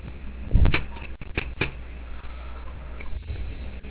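Keys pressed on a computer keyboard: a few scattered, sharp clicks and clacks, clustered early, over a steady low background hiss, with no voices.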